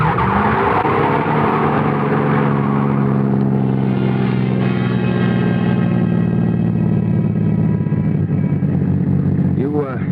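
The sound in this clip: A car is driven fast with its tires skidding and squealing. The engine roar is loud and continuous, with a shifting, wavering pitch throughout.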